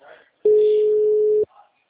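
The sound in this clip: A steady telephone tone sounds while a call is being placed: one continuous mid-pitched beep lasting about a second, with faint voice fragments just before and after it.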